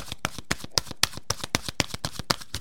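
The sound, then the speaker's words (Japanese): A deck of oracle cards is shuffled before one card is drawn: a steady, regular series of crisp papery riffles and slaps, moderately loud with no voices. “では続きましてカードからのメッセージをお伝えしていきます。今日の一言メッセージです。”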